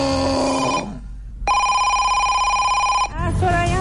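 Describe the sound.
An incoming call rings in on a radio show as a bright electronic telephone ring of steady buzzing tones. It sounds in a few bursts with a short gap after the first, and the pitch shifts between bursts.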